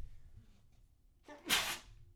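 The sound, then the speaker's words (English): A single sneeze: a short sharp intake followed by a breathy, hissing burst, fairly quiet against a low background hum. “Are you sneezing?”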